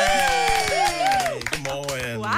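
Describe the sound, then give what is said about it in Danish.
A small studio team claps to welcome a guest, with sharp, irregular hand claps ringing out while people talk over them. “Det er den velkomst, man får her altid. Det kan jeg godt lide. Vi inviterer ikke nogen ind, som ikke er værd at klappe af.”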